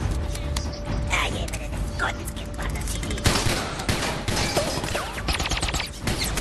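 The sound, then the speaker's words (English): Gunfire in a film scene sends bullets ricocheting off a robot. Rapid cracking shots and metallic hits clatter over a dense, noisy mechanical din with creaking, heavy and continuous throughout. “You'd think shooting bullets like that with their friends like unconscious on the ground would be a bad idea, especially since they're ricocheting off the robot and stuff”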